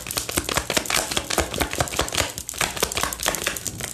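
Tarot cards drawn and handled from the deck make a quick, steady run of many crisp, dry clicks and papery rustles, with no talk over them.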